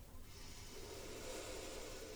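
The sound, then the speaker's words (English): A group takes a deep breath together while closing an om chanting practice: one long, steady breathy hiss runs through the whole moment, fairly quiet, with no talking. “Take a deep breath together.”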